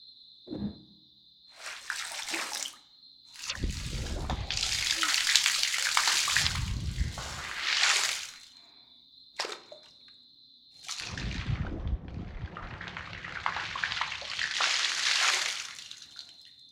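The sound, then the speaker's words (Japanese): Warm, lukewarm water poured over a head during hair washing, heard as several splashing, rushing pours broken by short pauses, with a faint steady high tone running underneath. “頭にお湯をかけますので目をつむっていただけますか？ぬるめにしていますが、もし暑かったら言ってくださいね。”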